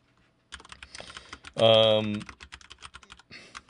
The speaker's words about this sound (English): So I'm going to type this out.